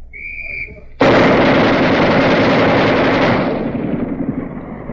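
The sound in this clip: The 60-caliber barrel of a twin-barrel machine gun fires one loud, dense, continuous burst of about two and a half seconds. The burst cuts in abruptly after a short steady tone, then tails off.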